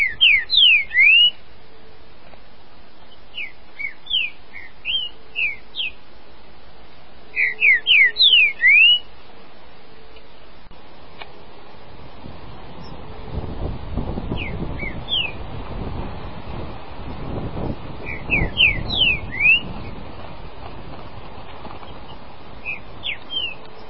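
Trinca-ferro (green-winged saltator) singing in short clustered bursts of quick, high whistled notes with pauses between phrases. A low rumbling noise runs under the second half.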